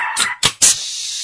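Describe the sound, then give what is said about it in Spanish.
A neurotic small dog yaps three times in quick succession, the sharp, loud barks rising in intensity, with no voices. “Ese perrito neurótico.”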